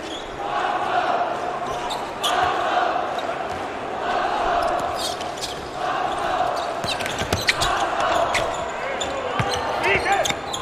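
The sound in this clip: A basketball is dribbled during a game, with many sharp bounces under a commentator's continuous talk and a faint crowd murmur.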